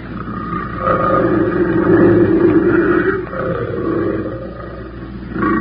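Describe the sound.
A female big cat roars near a trail where hunters wait by a drugged kill, a low, rough, sustained roar that swells, eases slightly midway and then rumbles on.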